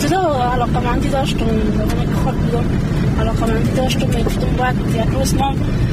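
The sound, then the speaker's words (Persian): A car driven by a woman on a road to a village: a steady engine drone and road noise run throughout while people talk over it. “او در جاده‌ای که بر روستایشان می انجامد رانندگی می کند و همزمان با ما گپ می زند”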